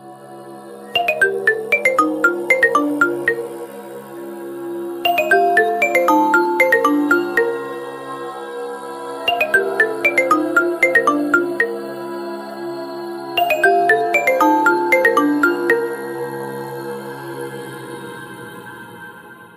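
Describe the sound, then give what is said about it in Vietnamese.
A Nokia mobile phone ringtone rings loudly, its bright chiming melodic phrase repeating four times in a steady cycle, with no voices over it. “Bên cạnh anh ta, chiếc điện thoại di động Nokia vẫn đang kêu vang.”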